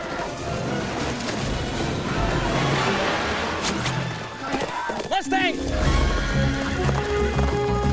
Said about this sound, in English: The Mustang stops on the edge of a bluff and rears up.